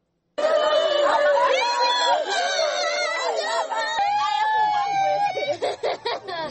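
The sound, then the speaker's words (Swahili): A crowd of villagers in Mukoko village, Beni, North Kivu, chatters and laughs, many overlapping voices forming a loud, continuous hubbub that turns choppier in short bursts toward the end. “Hao ni wananchi katika kijiji cha Mukoko ambao wilayani Beni hapa Kivu Kaskazini”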